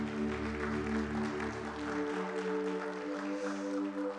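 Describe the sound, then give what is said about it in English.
A church audience applauds the worship team with faint, soft clapping under sustained keyboard chords. “Do you appreciate this worship team? Come on, can we give them a hand?”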